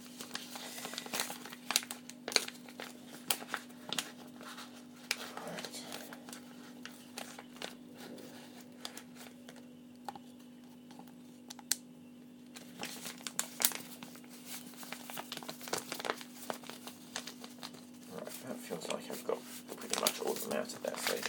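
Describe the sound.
A sticky plastic packet being opened gives many dry, crackling crinkles and rustles in irregular bursts over a steady low hum, with a quieter stretch midway before the crinkling picks up again.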